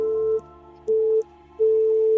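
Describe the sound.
Three steady electronic tones from a radio receiver tuned to an unlisted frequency, each a flat mid-pitched beep of roughly a third of a second, separated by short gaps, with the last tone held a little longer.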